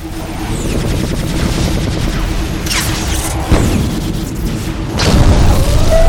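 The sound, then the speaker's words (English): Spaceship countermeasures fire against a launched missile during a dive into asteroids, heard as sharp booming bursts over a dense, continuous rumble, with one punchy hit midway and a heavier surge of blasts near the end. “The destroyer has launched a missile. We're gonna dive into those asteroids. Countermeasures made to order.”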